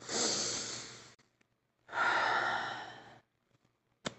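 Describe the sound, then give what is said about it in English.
Two long, deep breaths, airy and breathy, each lasting over a second with a short pause between them, taken alone without talk and followed by a brief click. “can we just like take a collective deep breath”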